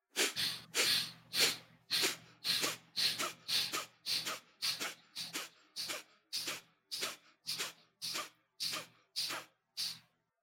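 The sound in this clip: Deep breathing exercise done with eyes closed: many forceful, even breaths follow one another at a quick steady rhythm, each a sharp burst of air, over a faint low hum.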